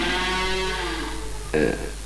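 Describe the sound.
Bullocks (oxen) lowing: one drawn-out call with a slightly sagging pitch, followed by a short, louder burst near the end.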